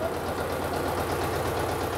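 An old engine runs on the throttle on a farm before fieldwork. It makes a steady, continuous low rumble with a faint regular pulsing beat underneath, even in level throughout.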